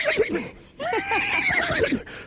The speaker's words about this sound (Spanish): Es que hasta los caballos están aquí.